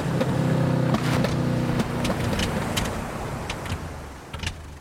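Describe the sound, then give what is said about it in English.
A boat's motor running out of fuel drones steadily with a low hum, then cuts out after about two seconds, leaving a broad wash of noise with a few scattered clicks and knocks. “What's happened? The motor's gone!”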